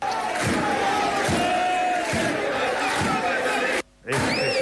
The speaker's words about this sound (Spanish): Este sonido del Reina, que claro, es de un partido.